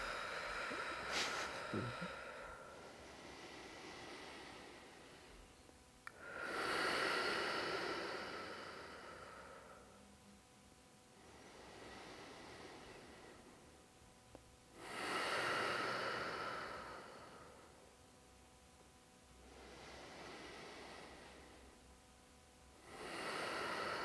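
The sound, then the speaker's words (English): Deep breathing in and out, with slow cycles of breathy hiss: three loud exhale swells come roughly nine seconds apart, and softer inhales fill the gaps between them. “this is just breathing in as deep as you can and exhaling out”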